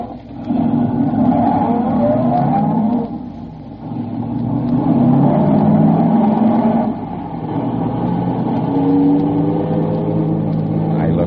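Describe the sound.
A car engine revs and rumbles as it drives off, a steady mid-pitched drone with wavering harmonic tones. It dips briefly partway through, then swells again for several seconds.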